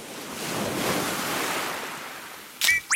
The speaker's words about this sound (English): Sway to the sounds of the ukulele and waves.